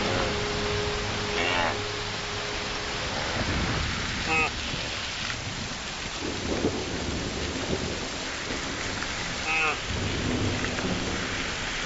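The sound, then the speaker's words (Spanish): A heavy rainstorm with thunder over the Virunga mountains of Africa's Rift valley: a dense, steady roar of falling rain, broken by deep rumbles of thunder. “Pero sin esta lluvia, los gorilas no tendrían tal abundancia de alimento.”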